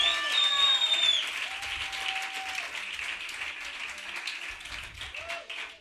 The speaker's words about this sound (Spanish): Vamos a ver cómo de visceral, de enérgico, de, de punzante es el aplauso del público de La Palma de hoy. Un poco más. Un poquito más.